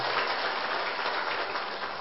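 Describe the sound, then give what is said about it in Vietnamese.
Steady, faint applause from an audience respectfully welcoming a senior Buddhist monk. The soft, even patter of clapping continues throughout without any voices. “Quý vị hãy dành một tràng pháo tay cung kính để cùng đón thượng tọa.”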